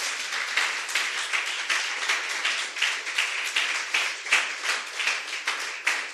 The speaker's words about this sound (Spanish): denle un aplauso al Señor, hermano.